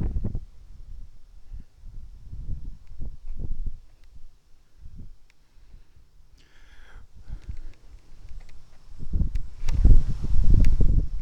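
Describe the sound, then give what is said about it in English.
Strong wind at the top of a hill buffets the microphone in many irregular low rumbling gusts, quieter through the middle and surging louder toward the end. “We got some really bad wind at the top of the hill here.”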